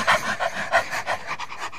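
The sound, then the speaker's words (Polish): People panting like dogs in quick, rhythmic breaths to exercise the diaphragm, many short, breathy pulses at a steady pace, loud at first and fading slightly toward the end. “Podyszmy trochę, jak pieski.”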